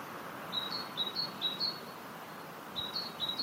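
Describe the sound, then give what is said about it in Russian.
A great tit sings faint, high, thin two-note phrases repeated in a quick series, pauses, then sings another series over a steady soft background hiss. “Вот так, например, поет большая синица.”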